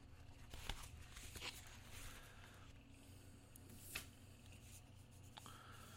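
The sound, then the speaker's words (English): A folder opened and papers rustling: faint, continuous crinkling and shuffling, with a few crisper ticks breaking through the quiet, soft texture. “All right, let's open up this folder.”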